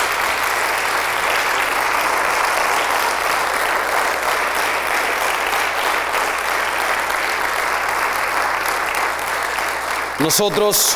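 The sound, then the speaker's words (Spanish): Congregation applause during a church service, offered to the Lord: loud, even clapping that continues steadily for about ten seconds before a voice starts at the very end. “Dele un aplauso al Señor.”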